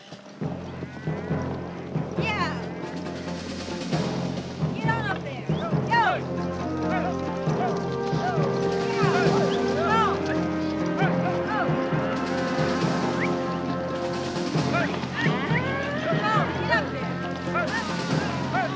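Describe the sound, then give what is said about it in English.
Herd of animals starting to move, a continuous jumble of hoofbeats and movement that builds slightly and holds steady, with people talking over it. “Slowly, the herd starts to move.”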